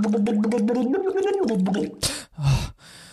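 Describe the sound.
Gurgling and bubbling from a person practising diving with their face underwater in a bathroom sink. A voiced, wobbling gurgle runs for about two seconds, followed by two short splashy bursts of water noise.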